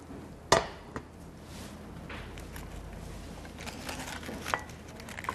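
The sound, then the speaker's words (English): Clatter of a plate and pan as food is flipped over by hand: a few sharp knocks and clinks stand out against a faint, steady background. “We're going to put the plate on top. And be careful you don't burn yourself. Okay, I'm going to flip it.”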